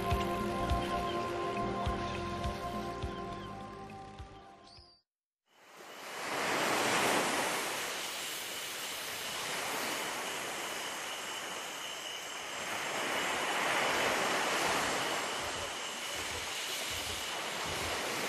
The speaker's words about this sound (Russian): Безбрежное море, шумные волны и бесконечное небо.